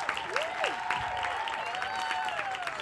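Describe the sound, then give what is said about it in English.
Audience applause greets an actor joining a Fast and Furious panel. The clapping forms a steady wash of moderate loudness, with faint tonal sounds gliding over it. “let's give it up for this amazing panel, making, I believe it's his fifth appearance in the Fast and the Furious, Mr. Tyrese Gibson. Tyrese! Here he comes!”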